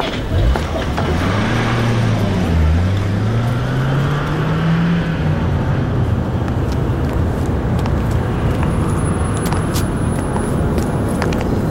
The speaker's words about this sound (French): On entend un ordre et une voiture de patrouille démarre en trombe.